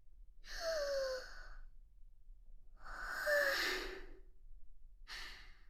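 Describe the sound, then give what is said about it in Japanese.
One person takes deep breaths to calm down: slow, airy inhales and exhales with a sighing, breathy texture, separated by quiet pauses, with no talk. “ちょっと深呼吸して落ち着きますね。”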